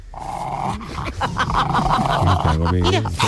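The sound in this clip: A St. Bernard dog growling and grumbling: low, rough, continuous vocal sounds that turn into deeper, throaty, moaning calls toward the end.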